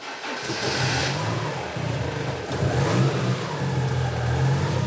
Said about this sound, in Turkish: Marşa basabilir miyim?